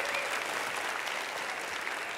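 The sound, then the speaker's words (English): Steady audience applause at a Go Cincinnati talk, a dense, even wash of clapping that fills the whole clip at moderate volume with no voices rising above it. “Little cheap applause. That was easy.”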